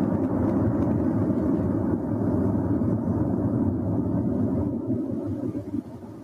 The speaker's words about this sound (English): can you play the example of an avalanche and then the military aircraft going sonic boom.